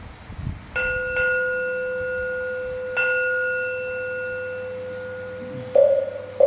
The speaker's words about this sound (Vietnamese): tiếng vọng chuông từ